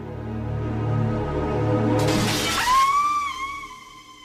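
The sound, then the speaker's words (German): A closed glass window shatters as someone jumps through it: a low rumble builds, then a sudden bright crash gives way to ringing, tinkling shards that fade out. “Das ist ja entsetzlich. Direkt durchs geschlossene Fenster.”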